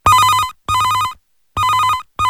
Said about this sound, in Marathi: चला तर सुरुवात करूयात या संवाद आणि गीताच्या प्रवासाला पहिल्या फोन कॉलने.